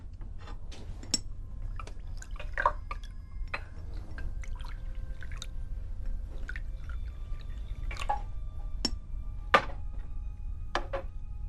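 Drinks being poured: faint trickling and dripping liquid with scattered small splashes and light clinks, spread unevenly over a quiet background.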